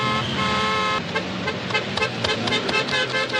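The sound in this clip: Car horns honking in slow holiday road traffic after lockdown: a long steady horn blast at the start, then continuous engine and traffic noise with a few shorter toots breaking through.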